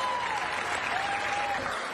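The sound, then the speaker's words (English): A full room of people, a classroom, breaks into applause: dense, even clapping that stays steady and fairly soft throughout. “I think it's one of the few times that you get like a full room of applause for skipping class.”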